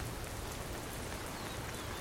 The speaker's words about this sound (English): a giant raindrop plopped on the basket. It was quickly followed by more.